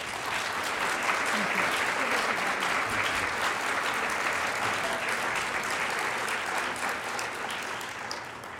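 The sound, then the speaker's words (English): An audience applauds to welcome Dr. Scott Hahn to a talk on Pope Benedict XVI's biblical theology. The dense, steady clapping is sustained throughout and tapers slightly at the end. “And so if you could please give a warm welcome to Dr. Scott Hahn.”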